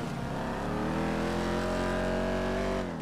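Car engine revving during a drag race in the video game GTA 5, a loud, steady droning roar whose pitch climbs gradually before dropping off slightly at the end.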